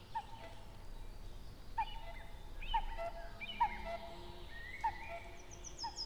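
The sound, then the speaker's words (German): Birds call in a forest: a faint series of short, repeated calls, some hoot-like, spaced roughly a second apart over a steady background hiss, with scattered higher chirps between them. “Und so viele Vögel höre ich. Ich weiß gar nicht, wie sie alle heißen.”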